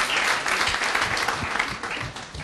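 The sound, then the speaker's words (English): Applause from a church worship-service audience, a dense, steady clatter of many hands clapping at once, sustained and fairly even for the whole stretch with only small swells, and no voices standing out. “Hey, let's give the Lord a big hand.”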